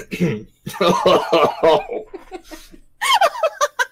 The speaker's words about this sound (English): Yep, that was a coughing fit.